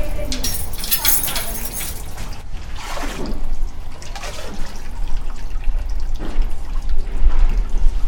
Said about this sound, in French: Oui, je dois ajouter de l'eau.